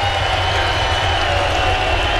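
A stadium crowd roars at Citi Field as fans stand during the ninth inning of a New York Mets baseball game. The cheering is loud, dense and steady, without a break.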